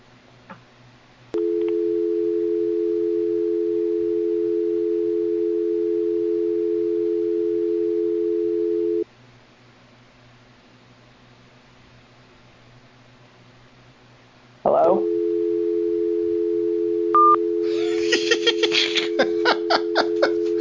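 A telephone dial tone sounds after the other party hangs up on a call: a steady mid-pitched hum holds for several seconds, stops, then returns, with a few short noises near the end.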